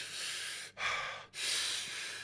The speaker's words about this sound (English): Now we're going to get quicker. Inhale. Relax. Inhale. Inhale. Inhale.